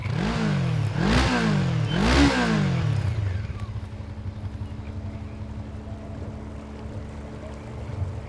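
A small electric motor on a rowboat revs in three rising surges, then settles into a steady, low, even hum.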